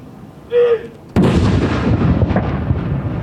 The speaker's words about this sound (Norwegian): Det er kommandanten som leder denne avfyringen. Hun står rett bak de som avfyrer disse saluttene.